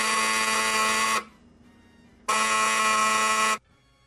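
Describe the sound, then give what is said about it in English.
The buzzer of the Operation board game: two loud, harsh electric buzzes, each lasting just over a second, separated by a short pause. “What would have happened in a toy that would make that noise? Is that Operation? Is it Operation? Woo! Yes, it is.”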